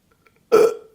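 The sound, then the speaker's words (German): A woman's single short burp, loud and abrupt, starting sharply and tapering away within half a second against otherwise near silence. “Hat sie gerade gerülpst?”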